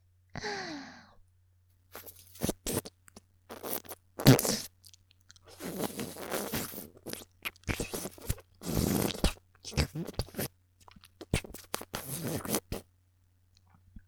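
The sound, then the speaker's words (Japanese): Wet mouth sounds of lips nibbling and licking an earlobe in ASMR style: many short, soft smacks and slurps in irregular bursts, opened by a breathy sigh. “耳たぶも唇で噛んで舐めてあげるわね。”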